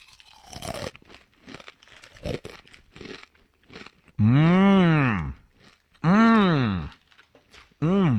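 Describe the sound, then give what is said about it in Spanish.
Crunching of Takis Fuego rolled tortilla chips from a bag: many crisp, irregular bites and crackles, then long, loud drawn-out voiced sounds, with a voice heard alongside. “Es una bolsa de Takis. Fuego. ¡Ay, qué rico!”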